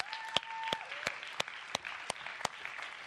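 A church audience claps to welcome a guest up front, with seven evenly spaced, distinct claps at a steady rhythm over a quiet background.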